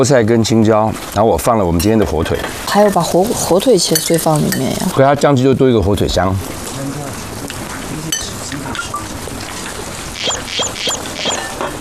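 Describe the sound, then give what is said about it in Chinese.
Stirring and mixing of a tofu dish: people talk loudly over the first half, then softer scraping and mixing noises carry on with only light background voices. “我们先把它拌匀，那待会我们先吃这个，吃完之后我就把恋爱豆腐完成。”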